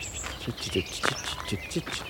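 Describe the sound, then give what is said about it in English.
A reed warbler sings in the reed beds of the Somerset marshes, giving faint, chattering, repeated high notes while a man talks over it. “There's a reed warbler singing ahead.”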